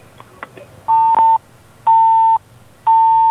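Disconnect tone as a telephone call drops: a few faint clicks, then three loud, steady, mid-pitched beeps, each about half a second long with short even gaps between them.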